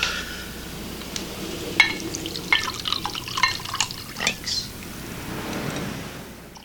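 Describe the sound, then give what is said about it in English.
A drink being poured: liquid trickles and splashes in a fairly soft, uneven stream, with a few small drips and light clinks scattered through it. “Pour me one then.”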